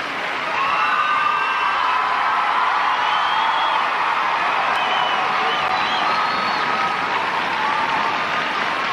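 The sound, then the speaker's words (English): An audience gives Michael Jackson a standing ovation at a stage event. Dense, loud applause goes on without a break, with cheering and whistles on top. “Michael gets about a 10 minute standing ovation when he comes out on the stage.”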